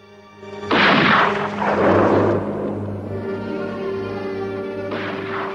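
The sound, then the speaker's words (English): A rifle fired outdoors in deep snow gives a heavy, booming blast that rolls on with a long rumbling tail, followed by a further surge and another burst near the end, all over a sustained low musical drone. “He stops and fires his rifle.”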